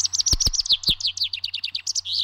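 A chaffinch sings a rapid run of many short, high chirping notes in steady rhythm, with a few sharp low knocks early on.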